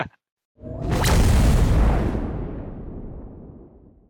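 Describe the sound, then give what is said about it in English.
A homing missile exploding in a video game: a single roaring blast that swells quickly after a brief silence, then slowly fades over a few seconds. “Ooh, these fucking missiles track me.”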